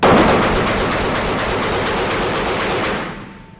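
Rapid, sustained gunfire from a firearm that has just cleared a jammed round: a loud, dense rattle of shots for about three seconds that then cuts off.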